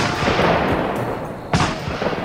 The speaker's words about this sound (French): Enfin, faut dire que Bernier l'a tiré avec de la chevrotine, et ça, au moins, ça pardonne pas.